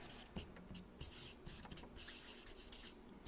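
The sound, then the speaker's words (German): Faint scratching of writing on a board, heard as a series of short, irregular strokes and rubs that start and stop throughout. “Der ältere Bruder schreibe ich mal, damit sie alle wissen, was ich meine.”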